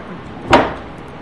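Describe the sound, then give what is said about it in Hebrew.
A volume of Talmud tractate Sanhedrin is opened with one brief, soft thump, muffled and alone against a faint background hiss. “אני פותח סנהדרין. פותח סנהדרין.”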